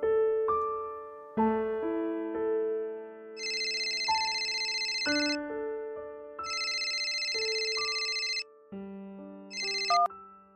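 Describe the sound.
A mobile phone ringtone sounds for an incoming call. It plays a melodic tune of steady tones, broken up by three bright, high bursts, and rings on its own with no talk.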